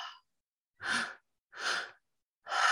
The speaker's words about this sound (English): three-part breath, where you breathe into the belly, you breathe into the heart and the lungs, and then you release on the exhale.